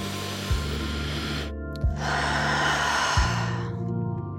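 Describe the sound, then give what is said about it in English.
Slow breaths drawn in and let out through the nose, two long airy rushes with a brief pause between, over a soft sustained musical drone. “inhale and exhale through the nose.”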